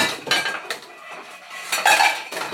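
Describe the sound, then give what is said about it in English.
Metal pots clatter and clank as they are pulled out of a kitchen cupboard, in a run of irregular clinking bursts that grow loudest near the end, with no talk. “Let's find the pot that I'm going to use. Please don't all fall out of the cupboard.”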